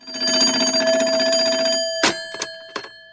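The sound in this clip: A telephone rings with a bright, sustained metallic tone lasting nearly two seconds, then three short clanging bell bursts follow in quick succession.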